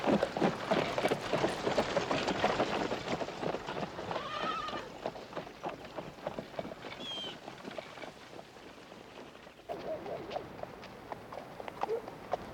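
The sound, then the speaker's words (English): Hooves of a horse pulling a wagon clip-clop steadily as it heads out, a long run of quick, even hoofbeats that softens a little midway and then picks up again. “John releases the wagon's handbrake, and they head out.”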